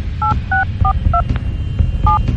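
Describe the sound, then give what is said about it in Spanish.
Telephone keypad dialing tones as a call is placed. Five short, bright two-note beeps come in an uneven rhythm, with a longer gap before the last one, over a low murmuring background. “Vamos a abrir llamada telefónica y vamos a marcar.”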